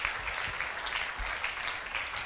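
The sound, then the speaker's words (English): Congregation clapping during a church altar call, a dense, continuous wash of many hands with a gentle pulsing rhythm, dull in tone and steady throughout. “Keep clapping as they come out.”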